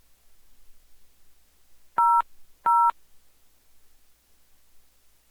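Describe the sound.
Telephone keypad button tones pressed while answering a call: two short, even electronic beeps in quick succession over a faint, quiet background.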